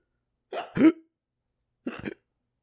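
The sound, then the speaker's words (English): A voice imitating hiccups: two short, abrupt voiced gulps, the first a quick double jolt and the second a single hiccup after a brief pause, with silence around them. “Do a fake hiccup right here.”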